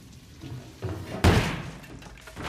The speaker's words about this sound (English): He kicks down the door to the candlelit room